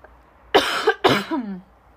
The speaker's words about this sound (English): I'm going to cough real quick